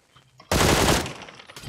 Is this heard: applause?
no